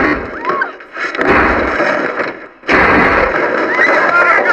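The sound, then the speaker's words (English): Gunfire in an audio drama: loud, noisy bursts of rough, rumbling fire that fade briefly, then return in another loud sustained stretch. “Who's shooting?”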